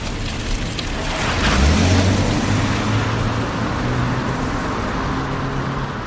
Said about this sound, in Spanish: El coche de Miquel está parado en el arcén de una carretera comarcal rodeada de arboleda. Dentro él consulta un mapa. Deja el mapa y se pone en marcha. Gira 180 grados y se aleja.